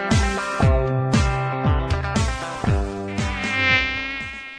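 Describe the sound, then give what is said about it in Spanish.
Mosquito buzzing, the kind that spreads dengue: a loud, reedy whine repeating in many swoops, each one sliding downward in pitch before starting again. “El mosquito que transmite el dengue vive en el agua clara, que parece limpia, y se junta en las gomas”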